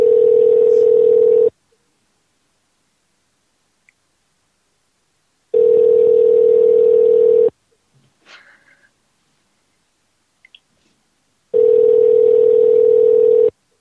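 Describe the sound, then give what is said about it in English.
A telephone rings back after a call is placed: three steady, loud ringback tones, each about two seconds long, separated by longer silences with faint small noises between them. “Phone's ringing. Phone's ringing. Answer your telephone.”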